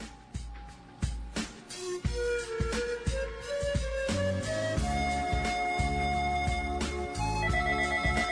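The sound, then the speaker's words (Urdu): Melodic telephone ringtone announcing an incoming call to a live call-in programme: a busy electronic tune of stepping notes over a steady pulsing beat, playing continuously without any talk. “تو جناب programme میں ایک اور کال شامل کیے جاتے ہیں.”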